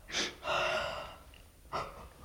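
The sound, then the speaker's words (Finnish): Someone yawning in the middle of the night: soft, airy breaths, a short intake followed by a longer drawn-out exhale, then another brief breath, all faint and close. “Ai, mutta nyt sisar haukottele. Anteeksi. Ei mitään. Keskellä yötä vaan tuppaa haukottamaan.”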